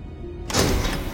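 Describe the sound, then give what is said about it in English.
Hospital hallway doors swinging shut: a single dull thump after a quiet moment, followed by a low, decaying rumble. “As the doors swing shut”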